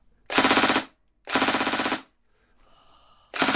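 A gun fires on burst mode in three loud, rapid bursts, each a quick rattle of shots separated by short silences. The last burst is cut off at the end, and a faint tone sounds between the second and third.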